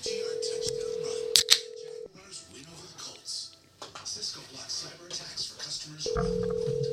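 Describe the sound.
Dialing a phone call over a car's Bluetooth: a steady electronic tone, a couple of brief sharp beeps, then a stretch of talking before the steady tone returns.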